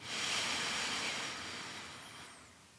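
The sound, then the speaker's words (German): A deep breath drawn during a stress-relief breathing exercise, heard as a steady, breathy rush of air that starts abruptly, holds for a couple of seconds and then gradually fades. “Und noch ein zweites Mal einatmen.”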